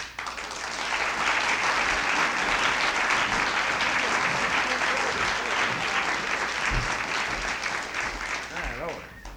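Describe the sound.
Audience applause welcoming performers at a Christmas concert: loud, dense, continuous clapping that holds steady for several seconds, with some voices mixed in, before easing off at the end.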